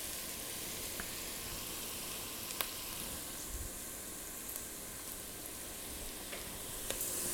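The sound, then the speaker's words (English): Roughly chopped onions with cumin seed sizzle in a pan. The frying makes a steady, faint hiss with a few small crackles and pops. “can you hear those onions going? It smells so good.”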